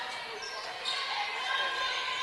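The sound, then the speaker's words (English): A basketball is dribbled near the center circle during a women's college game, its bounces sitting under continuous play-by-play commentary and steady arena noise. “Meyer dribbles near the center circle.”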